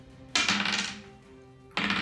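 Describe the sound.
Dice rolled slowly in a tabletop role-playing game: a rattling clatter that fades gradually, then a second burst of clatter near the end.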